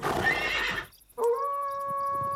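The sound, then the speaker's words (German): A man imitates a wolf's howl that frightens a herd of horses: a noisy burst with whinnying comes first, then after a short gap a loud, sustained, steady-pitched howl holds to the end. “Der vertreibt die ganze Herde mit seinem Wolfsgeheul.”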